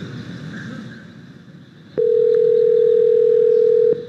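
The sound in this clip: A telephone dial tone sounds on a call to a small restaurant. It is a steady, single-pitched tone lasting about two seconds, starting and stopping with clicks after a stretch of low background noise.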